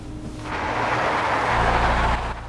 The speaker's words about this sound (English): They pull away through the bland, colourless parking area towards the main road, another timber truck close behind them.